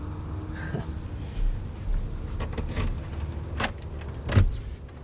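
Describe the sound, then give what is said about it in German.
Keys jangling in a few brief, faint metallic clinks and rattles scattered over a low, steady background rumble. “Ich habe die Schlüssel erst suchen müssen.”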